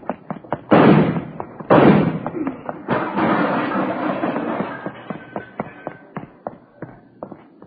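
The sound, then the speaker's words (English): Gunshots: two loud, sharp reports with ringing tails early on, followed by many smaller knocks and thuds. “You didn't have to shoot, did you? Lousy deal, you didn't have to shoot.”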